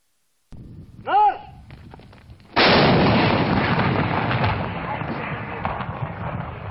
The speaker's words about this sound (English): And from here, artillery is paving the way for an unusual military operation.